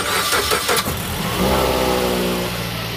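A military car's engine starts and revs as the vehicle drives off, a loud, continuous mechanical roar that settles into a steadier drone with no voices.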